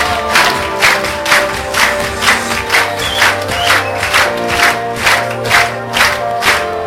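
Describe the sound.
Crowd clapping together to a steady pulsing beat, loud and dense, with a busy wash of voices and shouts running continuously underneath.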